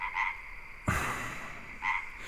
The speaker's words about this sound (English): Where did you get that? Why do you have that? Why would you pick up a frog?